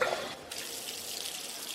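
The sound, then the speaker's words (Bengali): Water runs steadily from a tap in a men's washroom: a continuous, even hiss of flowing water, slightly louder in a brief burst at the start. “সোজা men's ওয়াশরুমে ঢুকে চোখে মুখে জল দিয়ে”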